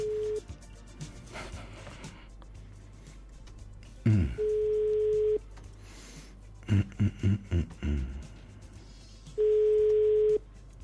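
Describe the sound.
Telephone ringback tone while a call waits to be answered: long, steady single-pitch tones separated by several seconds of quiet, with a few scattered clicks and knocks between them.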